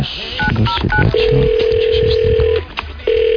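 A phone number is dialed with a few short keypad beeps, then a long, steady ringing tone sounds, with the start of a second ring at the end.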